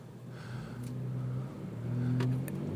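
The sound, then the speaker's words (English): Low, steady engine rumble of a dump truck driving up onto a curb at a construction site, swelling slightly in loudness toward the end with no talking. “oh, we got a we got a dump truck getting up on a curb.”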